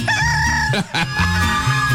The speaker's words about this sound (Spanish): Pónganle el alma a este gallo, el gallito madrugador.